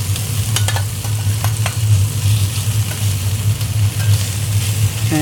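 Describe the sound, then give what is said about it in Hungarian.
Bread fries in a pan with a steady, loud sizzle and crackle, broken by a few sharp scraping and stirring clicks as it is moved around. “És ez mind bejön ez az íz ide a kenyérbe, és akkor utána sütöm tovább.”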